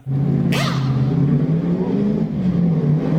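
Race car engine droning steadily at a NASCAR race as the car is backed up past its pit stop, with a brief whooshing rush near the start over the continuous low hum.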